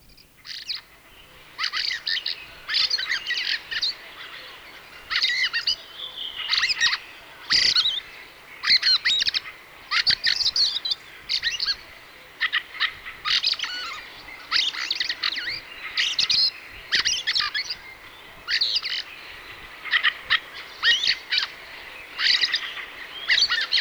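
Fieldfare song: many short, squeaky, chattering high-pitched phrases in quick bursts, repeated almost continuously with brief gaps, with no voices.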